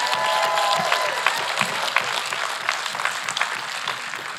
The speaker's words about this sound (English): I want to welcome our Boardman campus. They're coming online right now, and hello to everyone in Boardman. Here and more, can we give it up for our Boardman campus?